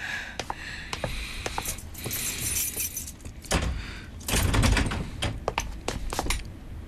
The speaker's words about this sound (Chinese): 你去把门打开。